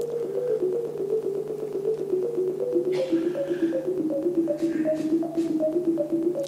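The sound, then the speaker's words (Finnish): Computer-composed music generated by a random walk: a steady stream of many short pitched notes drifting up and down in small steps over a sustained low tone, moderately loud and continuous without voices. “Esimerkiksi tämmöinen kuin satunnaiskävely, random walk, sillä voidaan säveltää musiikkia ja se kuulostaa tämmöiseltä.”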